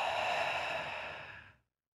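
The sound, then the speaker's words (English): A long, deep breath let out through the mouth, a soft, breathy exhale on its own that slowly fades away over about one and a half seconds. “Take a really deep breath in. And then let it out of your mouth.”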